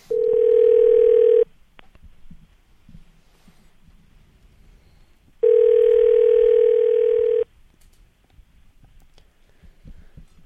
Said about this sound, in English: We'll dial the line directly with him on.